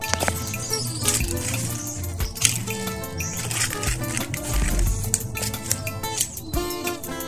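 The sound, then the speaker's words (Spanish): Countryside ambience by a patio with a mango tree: birds chirp and call over steadily running water, a busy and fairly bright outdoor wash with no voices. “Así suena el campo.”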